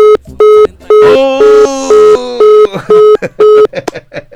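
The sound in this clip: Telephone tones from a call that ends with the other side hanging up: many short, evenly spaced electronic beeps at a steady pitch, with voice-like sound layered over parts of the sequence.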